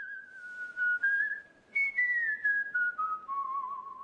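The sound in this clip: A man lying on a bench whistles a slow, soft tune: sustained notes in several short phrases, separated by brief pauses, stepping gradually lower in pitch.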